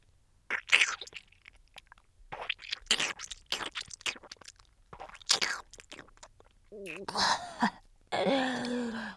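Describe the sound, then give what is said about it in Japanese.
Ramen noodles being chewed in the mouth, a string of irregular wet smacking and crunching bursts with short gaps between them, then vocal sounds near the end. “これこれ、口の中でラーメンかき鳴らしてる。”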